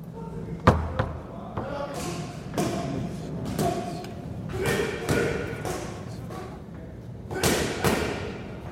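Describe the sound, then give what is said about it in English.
Sharp cracks of boxing pads being hit during pad work in a boxing gym, a rapid, irregular run of many punchy smacks over a low murmur of background voices. “You might be able to hear the crack of the pads behind us. Carl's hitting pads with Nigel Travis in the gym.”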